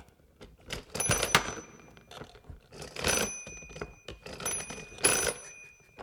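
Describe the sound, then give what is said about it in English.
Clicking and whirring of a toy rotary telephone's dial that is wired up for real. The dial is worked in a few separate bursts of dense mechanical clicks with a bright metallic ring. Quieter gaps fall between the bursts. “And it makes a just listen to this noise when you're doing the dialing.”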